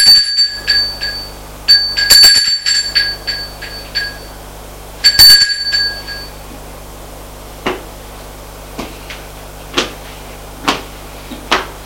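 A doorbell rings in a few short bursts of bright, high tone, with gaps between them and no reply. Sparse sharp clicks follow in the quiet.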